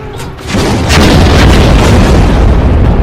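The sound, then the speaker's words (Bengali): Many anti-aircraft cannons fire together at approaching warplanes, making a dense, continuous roar of heavy booms that swells after the first half second and stays loud and rumbling throughout, with no voices. “ওই কালো কালো বিন্দুর মতো ছোট যুদ্ধ বিমানগুলো তাদের পাল্লার মধ্যে আসতেই হুঙ্কার দিয়ে একসাথে গর্জে উঠল অজস্র কামান।”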